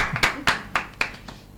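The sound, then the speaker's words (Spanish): A few separate hand claps of applause, soft and spaced about a quarter second apart, the last one fainter before quiet returns. “¿Le damos un aplauso?”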